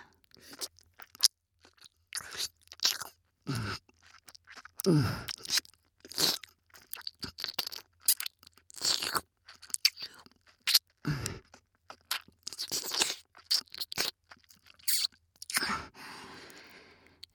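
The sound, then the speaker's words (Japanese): Wet ear-licking mouth sounds in close ASMR style: many irregular soft smacks and slurps mixed with breathy sighs, quiet and intimate. “耳も舐めてやる。”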